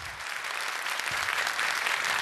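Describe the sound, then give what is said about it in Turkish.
A studio audience applauds in steady, even clapping that holds at a constant level from start to finish without pause. “Çok teşekkür ediyoruz efendim kıymetli alkışlarınız için.”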